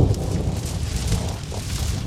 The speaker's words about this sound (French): Un jour, éclata un énorme orage. La foudre tomba sur un arbre mort qui prit feu.